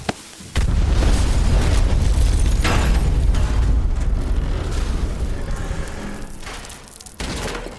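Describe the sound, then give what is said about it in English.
A pipe bomb explosion: a sudden, deep, loud blast that becomes a sustained rumbling roar, slowly fading, then surging again briefly near the end. “Pipe bomb! Move it!”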